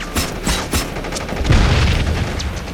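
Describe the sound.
A cooked hand grenade explodes amid a gunfight: a few sharp cracks of gunfire, then a heavy low boom that rumbles on under continued firing.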